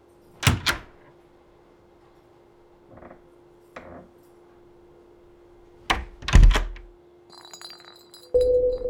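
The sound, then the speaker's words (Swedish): A hotel cleaner knocks on a room door in the morning: a pair of sharp raps, then a couple of fainter taps, then another cluster of louder knocks over a steady low hum, ending with a brief high metallic ring and a louder hum. “en av hotellets städare knackar på dörren till rum nummer 2005”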